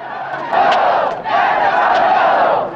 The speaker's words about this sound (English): The crowd has gathered outside the police station, held back by a police barricade.